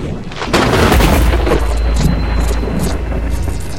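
A crackling electric lightning blast spell effect from a tabletop fantasy game: a loud, thunder-like burst swells into a sustained roaring rumble with scattered sharp crackles, heard alone without voices.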